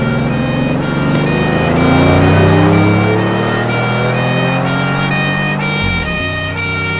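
A car accelerates away at speed, its engine a loud, sustained roar with strong harmonic tones that shift as it revs, then changes abruptly near the end.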